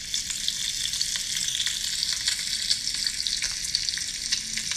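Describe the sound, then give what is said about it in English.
Bacon fries with a dense, even sizzle, a continuous bright hiss peppered with small crackles and pops that holds steady at a fairly loud level throughout. “Frying bacon.”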